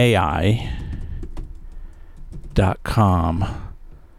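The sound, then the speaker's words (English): Typing a query on a computer keyboard: a few scattered soft key clicks sit under a voice that hums or vocalizes without clear words. “Like, let's type it in here right now.”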